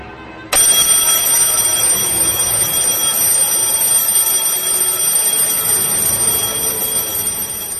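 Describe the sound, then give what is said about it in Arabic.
Alarm clock ringing: a loud, bright, high-pitched electronic ring that starts abruptly after a brief pause and continues steadily without a break for about seven seconds. “يمكن دي أحسن مرة حسيت فيها أن أنا محتاج أسمع صوت المنبه في حياتي. يمكن ده أجمل صوت سمعته وهسمعه طول عمري.”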